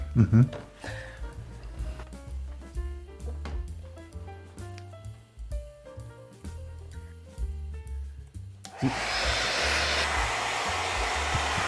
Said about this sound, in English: Could you just wet my hair a little bit and then dry it?